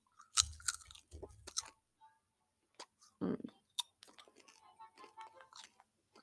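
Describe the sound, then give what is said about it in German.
Chewing and crunching as someone eats a snack, irregular close mouth sounds with a few heavier crunchy bites and low thumps early on, then a busier run of softer, quicker chewing and smacking toward the end. “Ich esse hier noch was, weil ich einfach Hunger habe.”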